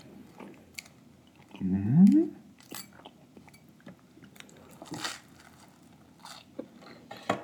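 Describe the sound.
Food is chewed with soft, irregular bites, wet mouth clicks and one louder crunchy burst early on. No talk.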